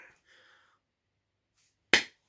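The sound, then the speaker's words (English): A single sharp mouse click on an online randomizer, crisp and fairly loud, following a brief moment of quiet after faint trailing speech. “And literally, it's a randomizer. I shall click it here and we will find out.”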